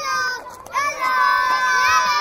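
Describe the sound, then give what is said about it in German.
Children shout and call out while playing in a refugee camp, their high overlapping voices loud and continuous throughout. “Kinder spielen im Dreck zwischen leeren Plastikflaschen und Resten von abgerissenen Planen. Sie rufen freudig Hallo, wenn sich mal ein fremder Besucher hierher in den Dschungel verirrt”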